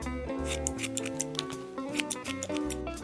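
Scissors snip through hair in a quick run of crisp, rhythmic cuts, heard over soft background music.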